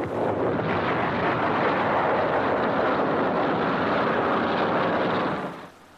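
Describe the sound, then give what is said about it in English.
Pinpoint bombing strikes one of the last bridges between the invasion coast and Paris: a loud, continuous rumbling roar of explosions runs unbroken for about five seconds, then drops away sharply. “Here is real pinpoint bombing. One of the last bridges between the invasion coast and Paris gets it.”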